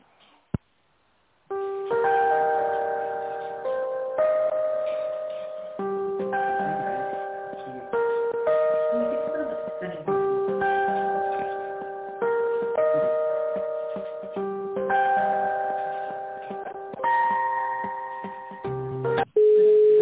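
Tones on a telephone line while a call is transferred to a company's tender department, an electronic melodic pattern repeating many times in a thin, band-limited phone sound, ending with a click.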